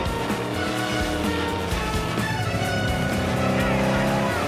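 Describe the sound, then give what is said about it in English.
A car engine roars as the car speeds off, overtaking traffic and tearing through the gates of a boatyard, with tires squealing over a loud, continuous revving drone. “they speed off, overtaking cars and careering through the gates of the boatyard”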